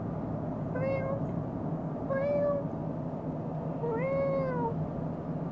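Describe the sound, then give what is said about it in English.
A voice imitating a cat's meow: three drawn-out mewing calls, the last one longest, each gliding in pitch over a steady background hiss. “Now the next one is a cat. And cats typically say meow, which sounds a bit like”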